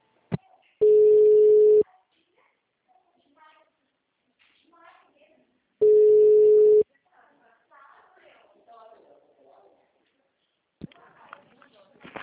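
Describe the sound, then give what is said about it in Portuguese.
Ringback tone as a phone call is transferred: two steady mid-pitched tones about a second long, separated by several seconds of near-quiet with faint voices, then a voice answers near the end. “Eu vou transferir para lá.”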